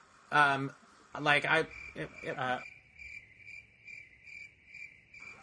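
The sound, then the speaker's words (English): A crickets chirping sound effect gives a steady series of high, evenly spaced chirps, repeating in a regular rhythm. A few seconds of talk come first, then the chirps carry on alone. “that was because of crickets. Like, crickets, insert that here.”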